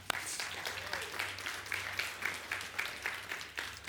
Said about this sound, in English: Pastor Todd Morikawa. Yeah, give him a hand.